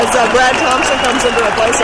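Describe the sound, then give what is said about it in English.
Baseball crowd noise, a sustained ovation as the departing pitcher leaves a Cardinals–Reds game, rumbles steadily beneath a commentator who speaks throughout. “No, honestly, this is the sound of the crowd ovation for Punk's song.”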